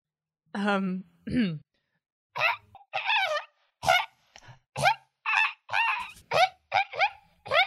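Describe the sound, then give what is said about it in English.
A person's voice imitates a pheasant call in a series of many short, harsh, honking squawks. Each burst is separated by brief silences, and the squawks grow quicker toward the end. “I need a pheasant noise and I couldn't find one that we could legally use. So could you be a pheasant for me?”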